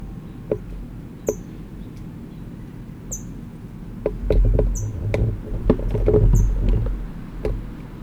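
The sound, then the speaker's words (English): An adult bird near its nest, holding food in its bill, gives a series of short, thin, high chip notes at uneven intervals. The chips are heard over a low background rumble with scattered soft taps. “Adult is chipping, it's got food in its bill, and I'm hoping it will go in, but I doubt it.”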